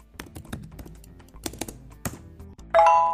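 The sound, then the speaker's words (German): A laptop being switched on: a run of light, irregular key clicks and taps, then a bright, sustained startup chime that rings out clearly at the end. “Wo ist denn mein Laptop? Ah ja, hier. Ich schalte den mal schnell ein.”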